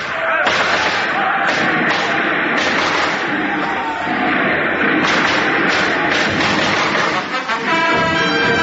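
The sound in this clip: A rifle volley rings out in a radio drama battle: a dense, loud barrage of repeated shots and thuds that continues almost without pause.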